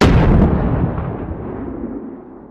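A grenade explodes in the Iraq War video game Six Days in Fallujah. One loud, deep boom hits at once, then rumbles and decays steadily over about two seconds.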